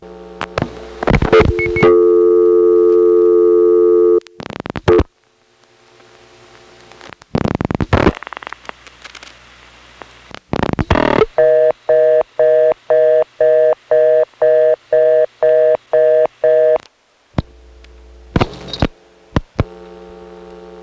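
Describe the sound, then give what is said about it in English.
A telephone reorder tone on a vacant level of a Chamblee step exchange. Dial tone and dialing clicks come first, then a fast, even series of on-off tone bursts with a buzzy, harmonic-rich timbre. “The Chamblee step has city ring, but for some reason, the vacant levels have always gone to a modern tone reorder.”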